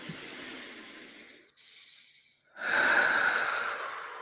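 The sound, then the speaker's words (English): A deep breath is taken during a guided relaxation exercise: a slow, airy inhale, a brief pause, then a longer and louder exhale that fills the second half. “And take a deep breath.”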